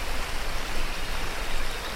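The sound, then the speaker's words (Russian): A small river flows below a slope. Its rushing water makes an even, continuous hiss that stays at the same level throughout. “Делает пару шагов, падает со склона. Внизу течет небольшая река.”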